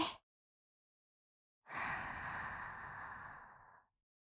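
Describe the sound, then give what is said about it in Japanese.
One long, soft breath drawn in during a guided breathing exercise, a breathy hiss lasting about two seconds that swells quickly, holds and then stops, alone in silence after a brief faint sound at the start. “呼吸が上手上手でちゅ。もう一回、また吸って、”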